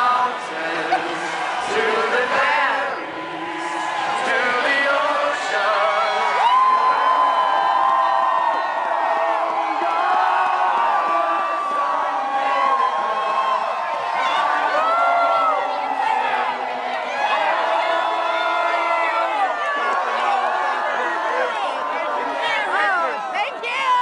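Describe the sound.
Crowd cheering and whooping in Madison as Wisconsin's 14 Democratic state senators return from Illinois after blocking a vote on public worker collective bargaining; a dense, steady roar of many voices with shouts throughout.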